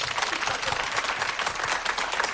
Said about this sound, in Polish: Poczta Polska, a także, bardzo proszę o brawa